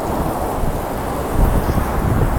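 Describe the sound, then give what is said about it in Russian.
Strong wind blows outdoors on a central Moscow street, a steady low roaring rumble buffeting the microphone that grows stronger partway through, with no talk. “Блин, ветер сегодня, конечно, ужасный.”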